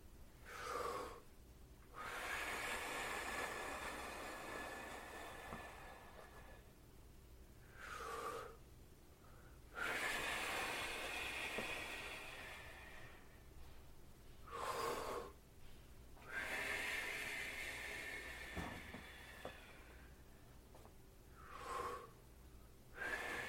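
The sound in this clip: Forceful breathing out during a guided breathing exercise: a few long, breathy rushes of air lasting several seconds each, separated by short pauses and quick inhales, with no talking.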